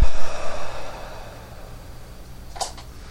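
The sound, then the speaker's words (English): A slow breath pushed out through the mouth during a relaxation breathing exercise: a loud, airy rush of exhaled air at the start that tapers away into quiet. “Inhale. Hold. Breathe out, exhale through the mouth.”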